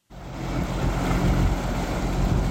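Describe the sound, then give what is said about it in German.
A floating stage is towed across a lake by tugboats for an opening ceremony. There is a broad, steady rush of wind and water with a faint low boat drone beneath. It starts abruptly and stays loud and even throughout. “Da fährt sie, die schwimmende Bühne für die Eröffnungsfeier, mit Schleppern einmal über den Maschsee gezogen bis ans Nordufer.”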